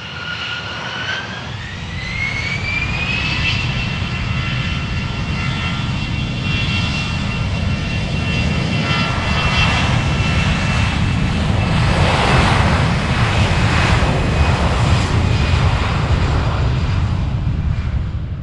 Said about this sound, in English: Now, let me guess what aircraft was. The A380, I take it.